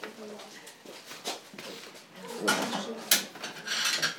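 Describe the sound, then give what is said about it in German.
A knife sawing through a loaf of bread, with repeated scratchy, rasping strokes in an uneven rhythm, fairly faint. “Dann schneide ich mal das Brot.”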